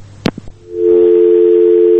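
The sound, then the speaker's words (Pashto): A telephone line tone after a call is cut off: a few sharp clicks, then a steady, loud, low-pitched unbroken tone that holds to the end. “تلیفون قطع شو”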